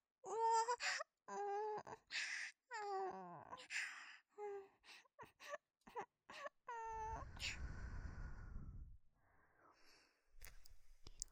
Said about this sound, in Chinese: 好了，宝宝，别哭了。这种欺负你的人，干嘛要为他哭呢？